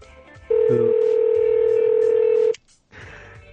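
A phone call being connected sounds a loud, steady single tone held for about two seconds, followed by a short silence and softer noise.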